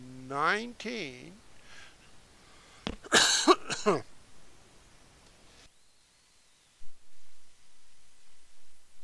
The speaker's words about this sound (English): Oh, man, I had a frog. I had a cough. I'm sorry.